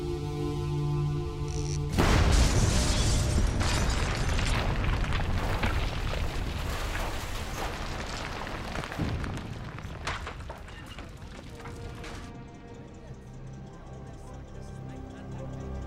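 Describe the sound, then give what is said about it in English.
A bridge over the Amblève river is blown up while a tank crosses it. A sudden loud blast gives way to a long, heavy rumbling roar of debris that slowly fades. “We waited till he was crossing. We blew the bridge.”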